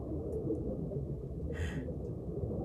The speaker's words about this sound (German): Was wir da hören, ist das Rauschen eines Baches. Ein Bach? Ohne allen Zweifel. Ein unterirdischer Fluss strömt in unserer Nähe.